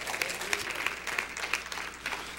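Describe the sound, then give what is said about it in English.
A church audience claps their hands in worship. Dense, continuous clapping with a loose rhythmic pulse and scattered sharper accents. “Somebody say praise God. Clap your hands unto God. Praise God.”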